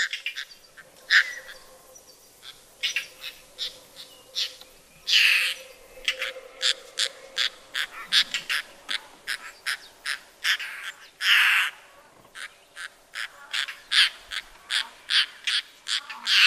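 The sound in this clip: Calls of a declining bird species repeat as many short, sharp notes in an uneven rhythm, with a few louder, longer bursts standing out against a quiet background.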